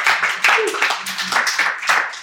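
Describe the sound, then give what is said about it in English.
Rhythmic clapping from a church audience giving a clap offering, sharp, fairly loud claps in quick regular succession, with brief vocal sounds mixed in among them. “Let's give the Lord a clap offering. Hallelujah. Let's give the Lord a clap offering.”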